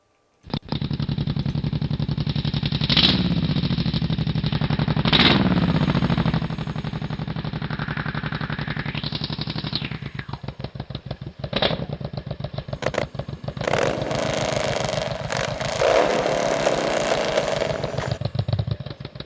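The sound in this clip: A motorcycle engine recording: the engine runs loud and steady with a raw, rumbling roar, swells briefly, then drops into a choppy, rapid putter of uneven pulses, with no talking.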